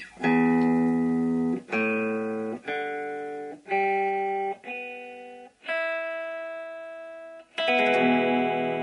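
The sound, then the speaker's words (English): An electric guitar plays seven sustained notes, each struck cleanly and left to ring and decay before the next, at shifting pitches with bright harmonics. “Now, what you just heard was an electric guitar, probably not an unfamiliar sound to many people,”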